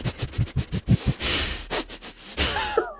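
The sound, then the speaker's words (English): A human voice imitates a rabbit's outward sniffing: a quick run of many short, breathy nasal puffs, then a few longer, rougher exhaled breaths. The sound is fairly loud and heard alone. “They do the outward sniff where they sniff a lot.”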